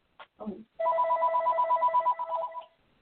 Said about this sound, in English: actually my phone is ringing right now